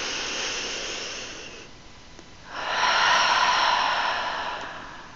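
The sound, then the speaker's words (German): A deep breath drawn in during a relaxation breathing exercise for children: a soft, airy rush fades into a short lull, then a louder, fuller inhale swells and slowly tapers off. “Einatmen. Und wieder einatmen.”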